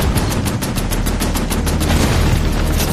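A Canadian tank opens fire: rapid, evenly spaced gunshots hammer on without pause, loud and continuous for the whole stretch.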